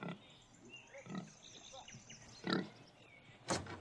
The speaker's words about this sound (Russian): Ой, свинья.